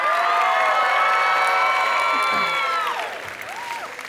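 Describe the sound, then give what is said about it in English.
An audience applauds and cheers for a stage cast: dense clapping with high, sustained whoops and shouts that taper off after about three seconds. “Can you guys give it up for our wonderful cast?”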